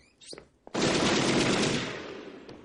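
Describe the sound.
Machine-gun fire in an audio drama, set in a hotel where a guest is armed. A few faint sounds come first, then a loud burst of rapid automatic fire runs unbroken for over a second before tailing off.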